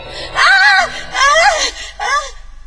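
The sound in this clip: A woman screams in fright with three loud, wavering cries. Each cry rises and then falls in pitch, and short breaks separate them.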